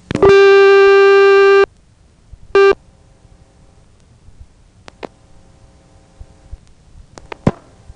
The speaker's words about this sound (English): That is coded ring pattern number 6 for Benson, Vermont.